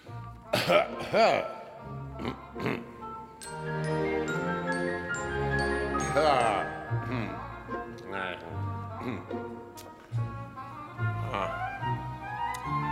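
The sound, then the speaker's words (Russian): An old woman's acted throat clearing, a few rough coughing bursts heard over sustained orchestral music. “Старуха выступила вперед, откашлялась и заговорила.”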